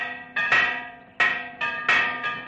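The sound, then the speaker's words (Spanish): A village church bell is rung as an alarm in a 1960 western, giving six loud, metallic clangs at an uneven, hurried pace, each ringing out briefly before the next. “Alguien hace sonar la campana de la iglesia.”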